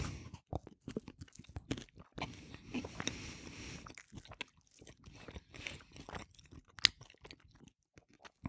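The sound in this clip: Someone chews bread topped with Kassler roast pork and Polish mustard, making many soft crunches and wet chewing sounds in an uneven rhythm. One sharper, louder crunch stands out near the end, with no talk.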